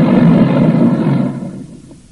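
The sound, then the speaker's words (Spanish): Engine roar of a US Department of Defense airplane arriving at an airport, a loud, low, rumbling drone that fades steadily over about two seconds. “un avión del Departamento de Defensa de los Estados Unidos de América llega al aeropuerto de Medville.”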